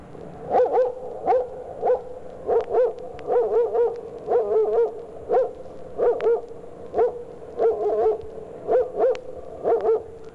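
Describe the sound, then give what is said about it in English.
A dog barks from a considerable distance, many sharp barks in short clusters of two or three, a steady rhythm continuing throughout over a faint background hum. “Here's the sound of a dog barking from a considerable distance.”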